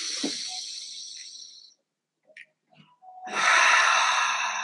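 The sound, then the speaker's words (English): Deep, airy breathing during a guided breathing exercise: two long, hissing breaths separated by a short quiet pause, the second one louder and fuller. “Breathe this energy and let it flow to all the parts of your body.”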